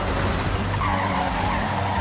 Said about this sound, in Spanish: Aquí voy por lo menos yendo hacia una carrera. Frenamos un poquitico acá a la izquierda.